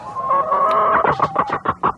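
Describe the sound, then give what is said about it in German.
An excited, agitated chicken that is being held and stroked lets out a drawn-out squawking call, then breaks into a quick string of sharp clucks, loud and with no voices over it. “er hat jetzt ein Huhn auch direkt vor sich sitzen”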